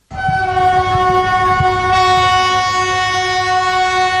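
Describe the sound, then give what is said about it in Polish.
Old vintage locomotives on a railway: a long, steady horn blast holds for several seconds over a low mechanical rumble, loud and continuous throughout. “Przywieźliśmy tutaj stare, zabytkowe lokomotywy.”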